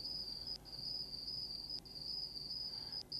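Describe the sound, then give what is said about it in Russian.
Cicadas chirp at night by the sea in a high, steady insect trill, faint and alone, broken by a few very brief gaps. “К лаю пса и мирному рокоту прибоя внезапно присоединилось стрекотание цикад.”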